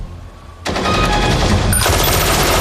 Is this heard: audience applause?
no